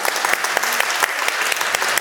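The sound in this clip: A church audience applauds a family for the prelude, a loud, dense and steady wash of many hands clapping that continues evenly throughout.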